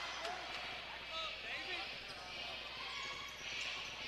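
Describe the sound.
A basketball is dribbled during a game in which Mountain Home leads, with quick bounces under steady crowd noise throughout.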